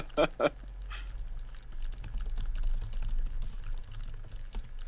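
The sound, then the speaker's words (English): Typing on a computer keyboard, many quick, irregular key clicks at a soft level over a low, steady background hum. “So while I was typing something on Slack about Charlie Loeb”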